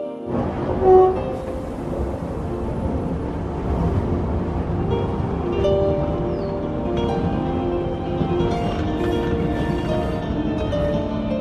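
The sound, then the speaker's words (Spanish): A train arrives at a station with a loud, steady rumble of wheels and machinery, a mix of tonal squeals and hum running throughout, and one brief louder bump near the start. “El tren llega.”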